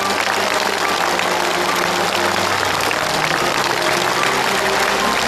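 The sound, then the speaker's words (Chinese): Audience applause, a dense, continuous wash of many hands clapping that stays loud and even from start to finish with no break or talk. “我们为他热烈的鼓一次掌。”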